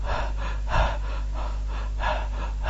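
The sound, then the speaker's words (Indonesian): Heavy, rapid panting as a man imitates someone out of breath after hurrying to the mosque for audienceal prayer: a steady run of quick, breathy huffs over a low hum, with no words. “terganggu kamu karena ini cepet-cepetan datangnya ke masjid, datang terengah-engah.”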